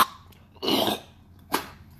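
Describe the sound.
A throat-clearing cough comes in two harsh bursts: a longer, rasping one followed by a short, sharp one after a brief pause.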